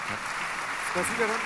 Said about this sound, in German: So wie er kam, verschwand er wieder mit einem kleinen Applaus.